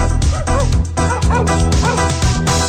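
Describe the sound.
Several dogs bark and yip at the same time, loud and overlapping without a break, their high yelps and barks forming a dense, constant din.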